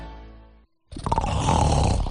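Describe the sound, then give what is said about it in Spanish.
An adult snoring: a deep, rasping, rumbling snore that swells loudly and holds after a brief tonal sound and a short moment of silence. “¿Sabes que casi la mitad de los adultos ronca de forma ocasional?”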